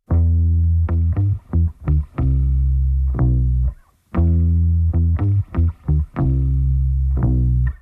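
A deep, bass-like electric guitar riff, loud and heavy, made of sustained notes broken by short stabs, with the phrase played twice and a brief silence between the two.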